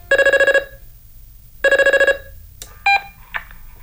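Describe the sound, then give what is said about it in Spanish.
A telephone rings on an outgoing call to Santiago, sounding two bursts of rapid, warbling pulsed ringing separated by a pause, followed by a few short clicks and rustles. “Estoy llamando a Santiago.”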